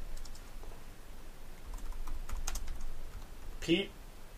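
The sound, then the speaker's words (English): Typing on a computer keyboard: a few faint, scattered key clicks over steady background hiss, with one sharper, louder clack near the end. “I have that weird thing, I typed in Frank Castle.”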